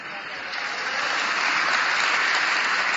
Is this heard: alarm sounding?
no